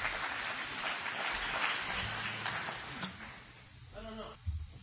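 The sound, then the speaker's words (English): An audience gives a round of applause, dense clapping that stays strong for a few seconds and then fades, after which a voice begins speaking. “Ladies and gentlemen, would you give him a round of applause, please?”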